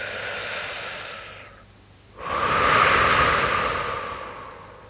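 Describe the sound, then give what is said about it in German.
Deep breathing: one hard, forceful exhale, a short silent pause, then a long steady inhale that stays loud to the end. No voices are heard. “Beginn einfach zu atmen. Atme ganz fest aus. Und wieder ein.”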